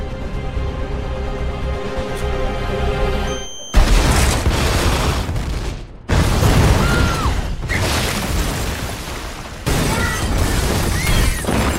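Explosions: after a quieter stretch of noise, three sudden loud blasts, each breaking into a long, roaring, crackling rumble that carries on until the next one hits.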